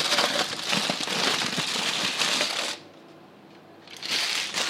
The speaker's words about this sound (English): I'm going to remove the foil. Okay. Remove the foil.